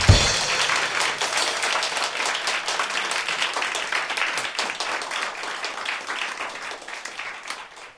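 Audience applause for a band at a live show: dense, continuous clapping that holds steady for about eight seconds, easing slightly toward the end.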